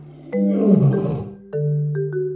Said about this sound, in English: L, l, l, lion.